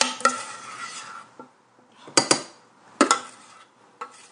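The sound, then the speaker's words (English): A metal spoon scrapes batter from the sides of a saucepan, making a few irregular metallic clinks and short scrapes. The bursts are separated by quiet pauses, and there is no talk. “So let me grab a spoon. And I'm just going to scrape down these sides. Oh yeah, I can feel lots more coming out.”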